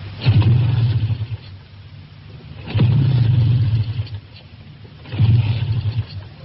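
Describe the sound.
A motorbike engine is kick-started in three separate attempts. Each gives a short, low, sputtering burst of engine noise that fades before the next, with no voices.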